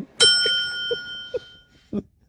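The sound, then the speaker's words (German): A single bright ding of a small bell, the kind wanted for a wheelchair, rings out clearly and fades over about a second, followed by a few soft, low taps. “Ich glaube, ich will jetzt so eine Glocke haben.”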